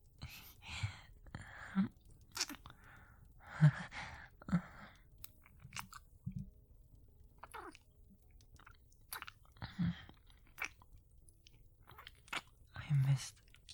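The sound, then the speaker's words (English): Kissing while making out: soft, wet lip smacks and moist clicks come in irregular bursts, mixed with breaths and a quiet whispering voice, all fairly faint. “In that case, I would just like to make out for a bit, to be honest.”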